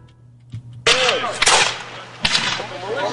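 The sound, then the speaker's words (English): Gunfire at a reenactment of the Battle of Gloucester at Stage Fort Park, with local militia against British warships: a few loud, booming shots with long, noisy tails, preceded by a fainter pop. “Shots rang out at the stage four, Fort Park yesterday as local militia and British warships duked it out during a reenactment of the Battle of Gloucester”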